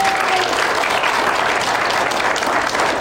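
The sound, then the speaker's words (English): Loud applause from a church audience after a message, with dense, continuous clapping at a steady level for the whole few seconds. “Well, thank you, Tim, for that message. Give Tim a hand,”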